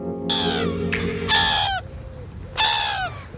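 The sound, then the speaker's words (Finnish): Gulls call with a few harsh, raucous squawks whose cries slide downward in pitch, loud and separated by short gaps. “lokit kraa.”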